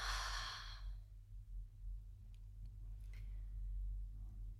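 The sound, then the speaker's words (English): A single big exhale out of the mouth, a loud breathy rush lasting about a second, then fading into quiet. A low steady hum continues underneath. “breathe in a little bit more through your nose and then let out a big exhale out of your mouth”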